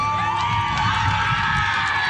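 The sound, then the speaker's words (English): Team Manitoba cheers after scoring a home run at the women's national baseball championship in Winnipeg, a loud, continuous roar of shouting and whooping voices at an even, sustained level. “Team Manitoba erupting in cheers after scoring a home run.”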